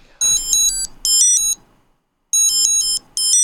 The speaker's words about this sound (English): I will trigger the sound, so it's got a different sound, and so it's just attached to my Find My. So I'll go Find My devices, wallet, and play sound.